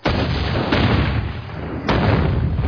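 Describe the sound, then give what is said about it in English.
A homemade liquor still exploding: three heavy booming blasts in close succession. Each is a dense, rumbling roar that carries straight into the next with no silence between. “there's no point in pretending you're making those noises. Your homemade liquor is exploding again.”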